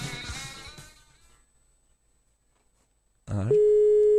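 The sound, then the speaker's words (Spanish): A telephone line tone while a call is being placed: voices speak at first, then fall to near silence before a steady, sustained electronic tone begins abruptly and holds unchanged to the end. “Vamos a llamar, ¿estamos, estamos llamando ahí?”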